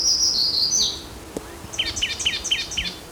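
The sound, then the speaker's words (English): Black-throated gray warbler singing: a high, thin bird song heard alone, with an opening sustained high phrase followed by a quick run of short, bright, buzzy notes. “Blackthorn gray warbler in the background.”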